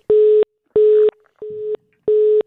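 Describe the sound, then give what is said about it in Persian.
A telephone disconnect tone sounds after a caller's line drops: four steady, mid-pitched beeps in an even on-off rhythm, the third one weaker and rougher than the rest. “بله خب تماس ما با اونا قطع شد.”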